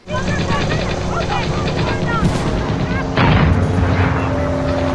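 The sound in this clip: Weapons firing in a video game: a dense, continuous rattle of automatic gunfire over a droning, helicopter-like rumble, growing louder about two-thirds of the way through.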